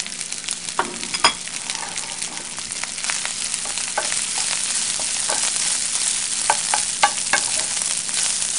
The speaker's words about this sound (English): Now I'm going to add my rice.